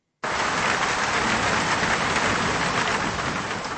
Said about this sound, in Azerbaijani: Dünən axşamdan başlayan güclü yağış Bakının həm kənardakı yaşayış ərazilərində, həm də elə mərkəzində problemlər yaradıb.